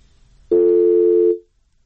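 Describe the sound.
A telephone line tone during an attempted call, one steady buzzy beep lasting just under a second, sounding alone against a faint background.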